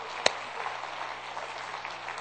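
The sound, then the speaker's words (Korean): A church audience applauding during a worship service, heard as a steady, fairly faint patter of many hands clapping, with one sharper clap standing out near the start. “Can you give these two sisters a big hand? Thank you.”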